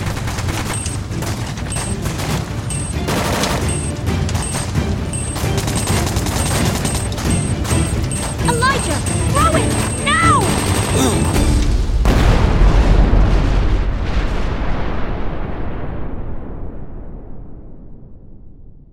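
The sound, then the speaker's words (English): A grenade explosion during a firefight, with a burning cart used as cover. Steady, dense gunfire and battle noise give way to a deep, low boom that swells and then slowly fades away. “I pulled out a grenade and engaged it, knowing that this was our only way out.”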